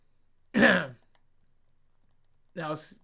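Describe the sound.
A person clears their throat once with a short, rough rasping burst. After a pause of about a second and a half, another brief vocal burst follows.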